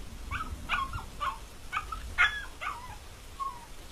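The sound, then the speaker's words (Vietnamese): A chained dog whimpering in fear: a series of faint, short, high whines and yelps at irregular intervals over a low background. “con chó bà nuôi xích ở đầu hè cứ hướng ra cổng rồi rên ư ửng, tựa như là nó sợ cái gì.”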